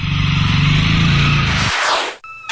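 A motorcycle sets off on a small county town street, its engine a loud, low droning roar for under two seconds that breaks into a sweeping whoosh and cuts off, followed by a brief thin tone.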